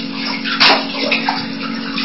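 Water runs steadily while something is being washed, a continuous rushing splash with a brief louder surge partway through and no speech.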